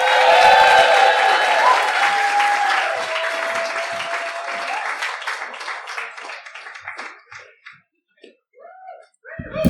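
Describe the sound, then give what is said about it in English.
Audience applause welcoming a comedian to the stage at a stand-up show: dense, loud clapping at first that gradually thins into scattered claps and dies away near the end. “please put your hands together and start clapping as loud as you could”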